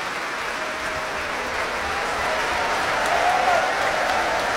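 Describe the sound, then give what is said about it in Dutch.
Audience applause after a concert: dense, sustained clapping from a large crowd that holds steady throughout and swells slightly louder toward the end. “Groot applaus nu voor Alexei Ogrinchuk, de solo-oboist. En ook voor klarinetist Carlos Ferreira.”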